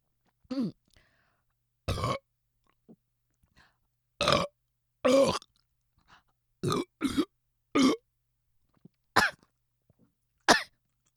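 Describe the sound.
Burps from a person after drinking cider: many short, separate belches with pauses between them, some rough and cough-like, as if choking.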